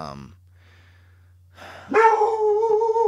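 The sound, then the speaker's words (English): A dog barks, reacting to other dogs across the street: a short cry, a pause of near silence, then a loud, drawn-out tonal call. “I don't know what happened, but I think there's another dog. Probably hears the dogs across the street.”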